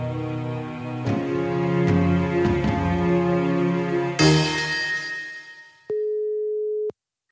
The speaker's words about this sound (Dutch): om eens eventjes uitgebreid te gaan bellen